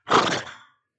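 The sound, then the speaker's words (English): A human voice imitates a horse's snort with one short, breathy, rasping burst that rises sharply and trails off within about half a second. “When Jesus is described as being deeply moved in spirit, it literally means the sound of a snorting horse. You know, when a horse goes,”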